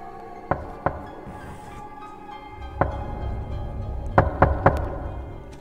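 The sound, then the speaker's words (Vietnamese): Soft knocking on the door leading out to a porch: dry, sharp raps in irregular groups over a low background hum. Two knocks come early, then a single one, then three quick knocks close together. “Ba tiếng gõ ở cánh cửa thông ra ngoài hiên vang lên khô khốc.”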